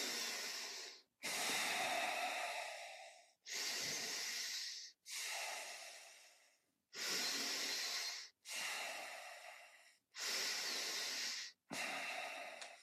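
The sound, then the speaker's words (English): Four connected breaths drawn in and out through the nose give eight breathy hisses in a steady rhythm, heard alone with only brief gaps between breaths. “So the four connected breath is going to be in and out through the nose. It's just going to look like this.”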